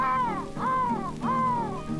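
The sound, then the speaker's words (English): Three harsh, drawn-out crow caws follow one another at a steady pace. Each is a loud, nasal call that arches up and then falls, with no other sound behind it. “Saw the old crow and the old crow call.”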